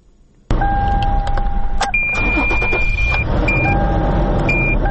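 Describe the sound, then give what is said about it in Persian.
A woman driver's car starting in Herat: a steady, loud engine rumble begins abruptly after a brief quiet moment. Several high electronic warning beeps at different pitches sound over the engine. No one talks. “در حال روشن کردن موترش است.”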